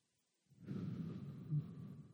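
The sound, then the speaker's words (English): A deep breath is drawn in after a moment of silence: one long, steady, fairly loud inhale that carries on to the end. “Can you just take a deep breath right now?”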